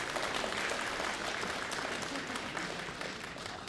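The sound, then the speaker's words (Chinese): Audience applause for a stand-up comedian walking on stage at a comedy show, a soft but steady patter of many hands clapping that stays even throughout and tapers only slightly at the end. “想不到还真有人鼓掌啊”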